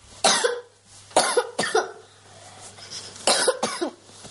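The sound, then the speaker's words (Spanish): A young girl coughs repeatedly in a doctor's consulting room. Harsh, loud coughs come in uneven bursts with short pauses between them, and some come in quick pairs. “Una niña tose incesante frente al escritorio y su madre le acaricia preocupada.”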